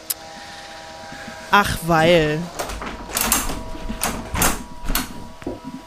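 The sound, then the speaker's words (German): A window is shut in a building under scaffolding and renovation: a wavering squeak is followed by several knocks and clunks, with a faint hum underneath. “Ich habe mal das Fenster zugemacht, weil bei uns das gesamte Gebäude eingerüstet ist und renoviert wird.”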